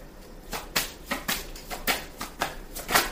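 Soft tarot cards being shuffled or drawn during a reading, heard as a quick, fairly regular series of many crisp, papery flicks and riffles at a quiet level.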